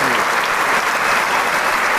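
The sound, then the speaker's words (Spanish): Dense applause from a theatre audience for an orchestra after a concert. The clapping is sustained and steady at an even loudness throughout, with no single claps standing out. “sus arcos, los que son de cuerdas, para indicar el aplauso hacia la propia orquesta y hacia la propia audiencia que está aquí en el Teatro Isauro Martínez”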